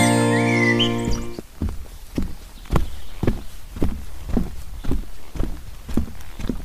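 Footsteps tread along an educational forest trail on a drizzly day, a steady series of dull thuds about twice a second that carry on alone after a brief tonal sound at the start.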